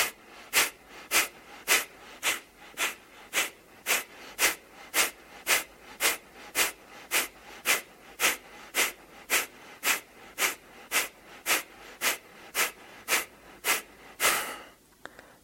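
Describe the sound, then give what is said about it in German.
Kapalabhati yoga breathing: many sharp, forceful nasal exhalations follow one another in an even, quick rhythm, each a short hissing puff, steady and moderately loud throughout. “Dann gib nochmals die Hände in die Luft und übe nochmal Kapalabhati-Atem.”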